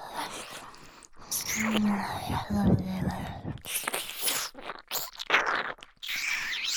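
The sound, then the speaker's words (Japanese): Wet licking and mouth sounds in an ear-licking ASMR recording: many close, moist smacks and soft clicks, mixed with breathy whispering. “あなたのお耳が美味しくて、舐めるのに没頭してしまいます。”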